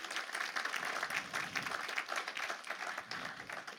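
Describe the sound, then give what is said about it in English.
An audience at a birthday celebration applauds to welcome a speaker, giving a steady wash of fairly soft clapping with no clear break. “So would you put your hands together and welcome Sham Agashi up?”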